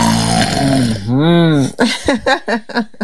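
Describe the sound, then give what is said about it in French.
A voice imitates a father's snoring: a low droning hum swells into a long rasping snore, followed by a rapid run of short puffing snorts. “Quand papa ronfle, il fait un bruit qui fait quoi? Quand il ronfle, il dort, il ronfle, ça fait”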